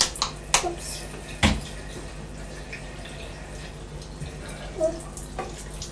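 Running tap water as hands are washed with soap, a steady watery hiss broken by a few louder splashes and drips.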